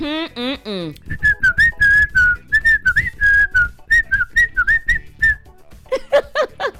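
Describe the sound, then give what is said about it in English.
A person whistles a bright, warbling melody in short connected phrases that hold a steady high pitch with quick slides and wobbles. A brief voice is heard at the start and again near the end. “I would not whistle at all. I would not whistle. But these days,”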